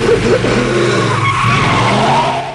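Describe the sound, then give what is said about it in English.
A pickup truck speeds and skids across a wet, gasoline-soaked garage forecourt. A loud, steady tire squeal blends with engine noise and holds without a break from start to finish. “Ryder's pickup crashes through a flimsy garage door and speeds towards the fleeing Jim. The pickup smashes through two pumps, spraying gasoline across the forecourt.”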